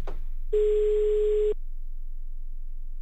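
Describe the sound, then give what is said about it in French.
A single steady ringback tone from an unanswered phone call sounds for about one second, then cuts off into a faint low hum. “Oh, puis, il décroche pas, là, Barchon, alors.”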